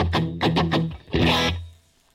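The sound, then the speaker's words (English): Electric guitar played through an effect pedal with a slight reverb: a few picked notes ring out, then a fuller strum sustains before fading away alone. “I have a slight reverb. I think I can turn that off, actually. It's slightly still there.”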